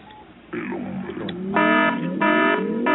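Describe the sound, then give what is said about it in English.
An alarm going off with steady, buzzing harmonic beeps: two long tones and then the start of a third. They follow a stretch of fainter, sliding tones. “That's my alarm. I gotta go.”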